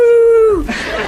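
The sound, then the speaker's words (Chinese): A person imitates a wolf howl: one sustained, voiced tone that holds steady and then slides downward at the end, followed by a brief burst of noisier sound. “不错，山上到处都是狼，叫起来是这样的”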